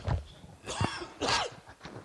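A few short coughs from a tickle in the throat, rough throaty bursts separated by brief pauses, with no talk over them.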